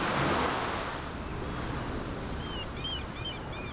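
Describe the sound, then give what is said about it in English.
Ocean waves washing onto a shore make a broad, steady rushing hiss that is loudest at the start and holds fairly even throughout, with faint high chirps appearing near the end. “You stand right at the ocean, and it's beautiful, because it's in big natural stereo. There are things happening on both sides of you, as well as happening directly in front of you. It's wonderful. I love that sound.”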